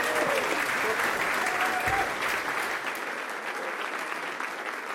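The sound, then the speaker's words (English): Audience applause welcomes guests at a live GAA sports show in Westport, with dense, sustained clapping that gradually thins and softens and faint voices mixed in. “So give it up for James Horan, Mickey Conroy and Declan O'Sullivan.”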